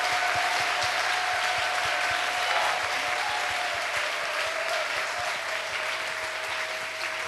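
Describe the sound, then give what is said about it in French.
An audience claps for the Lord in steady, dense applause that runs through the whole stretch at an even level, with a regular low pulse beneath the clapping and a sustained tone held above it. “Acclamons encore le Seigneur. Let's clap for the Lord again.”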